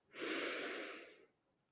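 A single long, deep inhale taken during a guided relaxation exercise: a soft, airy breath drawn steadily in through the nose or mouth for about a second, heard alone without talk.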